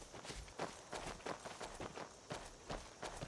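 Footsteps of a character walking in a video game: many faint, evenly paced steps in a steady rhythm.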